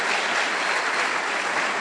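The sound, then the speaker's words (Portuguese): A church audience applauds, producing a dense, even roar of clapping from many hands that stays steady throughout, with no voices over it. “Vamos dar glória a Deus, vamos aplaudir o Senhor.”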